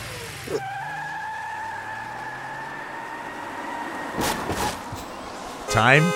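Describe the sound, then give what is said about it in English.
Bus engine and horn sound effect: a sustained, steady two-tone horn blare over a low engine rumble, then a few louder rough bursts toward the end, the last with a wavering, sweeping pitch. “Time to get thrown under the bus. Oh, that is a great sound effect getting thrown under the bus.”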